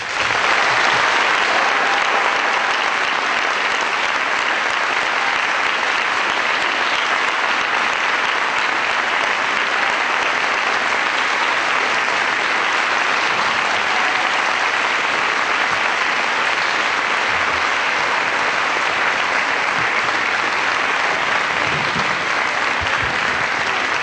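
Sustained audience applause welcoming President Václav Havel, a thick, even roar of clapping that stays loud and unbroken for the whole stretch.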